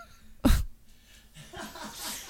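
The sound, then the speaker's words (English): A person dry heaves once, a short, harsh, retching burst that stands out sharply. Quieter breathy vocal sounds follow afterward. “Did you just dry heave? A little bit.”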